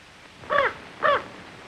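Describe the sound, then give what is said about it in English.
A raven gives two harsh, loud caws in quick succession, evenly spaced and alone against a quiet background. “Suddenly, the raven swoops into the bedroom and lands on his lap.”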